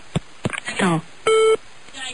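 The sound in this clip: A telephone tone sounds after a call is hung up: one steady, clear beep held for about a quarter second, following a short burst of talk.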